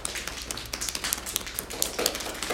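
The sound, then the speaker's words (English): A right hand pats down the left arm in a self-massage routine, a rapid string of many light, slapping taps at an uneven rhythm, moderately loud with no talk over it. “And then we're going to take with our right hand and pat down the left arm”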